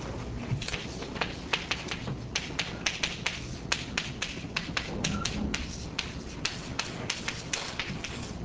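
Chalk tapping and clicking on a board as equations are written during a physics lecture: many quick, faint, irregular taps with no talk.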